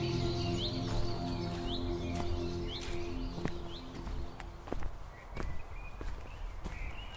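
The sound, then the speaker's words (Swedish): Footsteps walk up Solberget hill in Hammarbyskogen forest, a steady series of many crunching steps, while birds chirp now and then in the background over a low hum that fades after the first few seconds. “Jag går upp på Solberget.”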